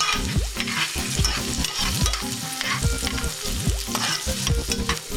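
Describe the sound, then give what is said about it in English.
Rough-chopped onion, one medium onion, sizzles loudly in a hot pan with a steady crackling fry. Repeated rhythmic scraping strokes of a utensil stir it throughout, and no one speaks. “Then add my rough chopped 1 medium onion. Give it a little stir.”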